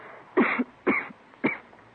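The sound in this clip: A tall young woman with a bad cough lets out three harsh, raspy coughs, spaced about half a second apart, each short and fairly loud against near silence.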